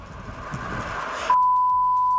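A censor bleep covering a word on radio: after a stretch of muffled, noisy sound, a steady high-pitched tone cuts in abruptly and holds loud and unchanging to the end.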